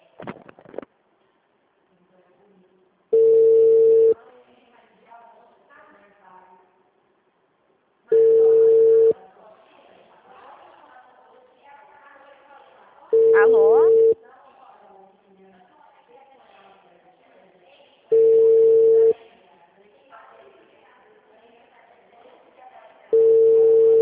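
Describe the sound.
A phone call being placed to a client that hits a busy line: long, even electronic tones repeat at regular intervals, with faint murmuring sounds in the gaps between them.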